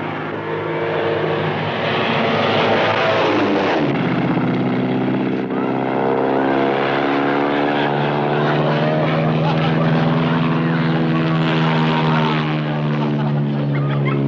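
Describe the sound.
A small propeller airplane engine drones loudly and steadily during a stunt loop, rich in engine harmonics, with its pitch shifting noticeably partway through the maneuver.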